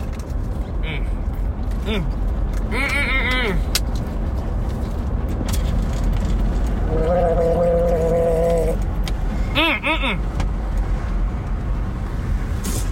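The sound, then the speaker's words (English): Someone gargling Listerine mouthwash: a continuous bubbling, throaty gurgle against a steady noisy background, with some sustained vocal tones rising out of it now and then. “I should really put some mouthwash in my mouth. Because my mouth kind of tastes nasty.”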